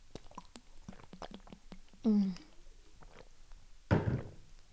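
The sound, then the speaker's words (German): A person takes a sip of a drink and swallows, with quiet wet mouth clicks and gulps, a short voiced hum partway through, then a single dull thunk near the end. “Und ich muss mal kurz einen Schluck trinken.”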